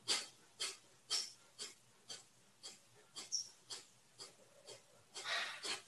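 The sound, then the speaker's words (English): Quick, forceful exhales pushed from the belly during a breathing exercise, about a dozen sharp, breathy bursts in a brisk, even rhythm, fairly quiet and heard alone. “So relaxing the arms and like 10 to 12 times, a quick exhale from your belly.”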